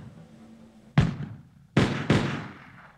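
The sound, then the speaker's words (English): Three musket shots fired by British troops at Lexington, each a sharp, loud crack with a booming decay. One shot comes first, then after a pause two more follow in quick succession over a low background hiss. “Without orders to do so, the British troops began to fire.”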